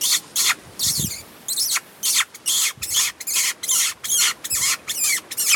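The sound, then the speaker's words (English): A person squeaks with the mouth to lure a coyote, imitating a small rodent: many short, high, chirping squeaks in quick, fairly regular bursts, each followed by a brief pause, loud against quiet background. “I just started squeaking with my mouth,”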